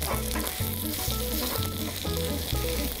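Food sizzles in a pan after being flipped and pressed down, a dense, continuous hiss running throughout over a steady repeating tune underneath.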